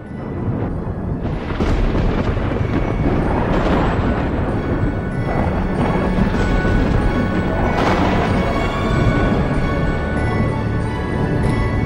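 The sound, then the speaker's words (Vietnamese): Thunder and lightning strike down onto a man: a loud, sustained roar of crashing, rumbling thunder with repeated heavy cracks layered throughout, never letting up. “thiên lôi đánh thẳng xuống người của lão Sáu Sẹo. Chỉ thấy sấm sét chói lòa đùng đùng”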